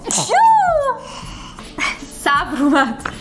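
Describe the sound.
A person sneezes, a sharp breathy burst with a voiced, falling tail, followed shortly by more vocal sounds.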